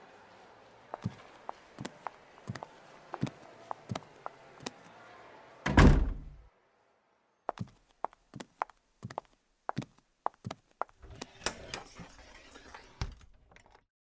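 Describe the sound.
A door is closed in a restaurant with one loud, heavy thud that stands out between lighter taps and footstep-like knocks.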